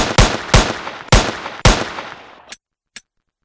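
Four sharp gunshots ring out at an even pace, each loud crack trailing off in a short decay, followed by two much fainter clicks after a pause.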